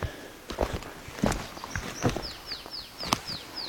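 Footsteps in forest wheel ruts left by a forwarder or harvester: several soft, irregular crunching steps, joined in the second half by a bird giving a quick run of short descending chirps.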